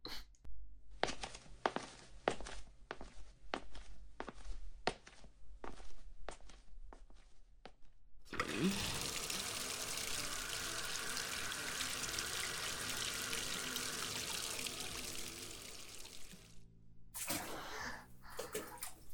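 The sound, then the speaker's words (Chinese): Footsteps pace along in a quick, even series before water gushes into a bathtub, a loud steady rushing that runs for several seconds, then breaks off and briefly resumes. “我们多久没有一起洗澡了？我去放水”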